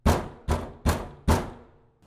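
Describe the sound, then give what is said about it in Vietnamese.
Rapid, urgent knocking on a window: four loud, hard knocks evenly spaced about half a second apart, each with a short ringing decay, heard alone. “Cho đến khi tiếng gõ cửa dồn dập sát bên tai, nghe chói vô cùng, thì Hòa”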